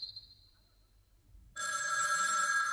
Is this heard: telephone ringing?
yes